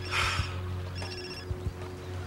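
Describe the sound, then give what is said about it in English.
A telephone ringing in two short trilling bursts, faint over a steady low hum, with a couple of soft knocks after the second ring. “Your phone.”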